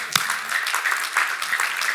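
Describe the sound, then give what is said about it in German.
Audience applause at a church sermon, a dense wash of clapping at moderate loudness with a sharp clap near the start, steady throughout the short stretch. “Ja, das ist ein Applaus wert.”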